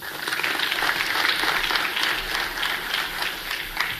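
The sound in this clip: An audience applauding to welcome a speaker onto a conference stage, dense steady clapping throughout that eases slightly toward the end.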